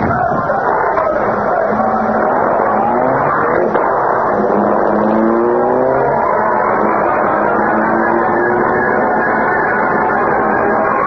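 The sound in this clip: A car driving off in a hurry, its engine revving and accelerating with a rising, straining pitch over a constant, dense background rumble.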